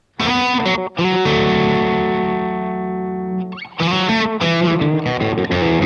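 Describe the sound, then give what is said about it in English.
An electric guitar played through a JHS Broadcast and a Jan Ray overdrive pedal set with extra gain gives distorted chords. A long sustained chord rings and slowly fades, then more chords follow, loud and gritty, with no talk. “I have a Jan Ray on here, which it's got a bit more gain the way I have it set right now.”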